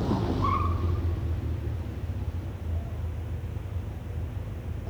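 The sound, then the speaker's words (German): A car arrives to park: a steady, low rumbling engine with broad road hiss continues throughout, easing slightly in loudness toward the end with no voices. “Da kommt dein Auto. Dafür ist ein Parkplatz da.”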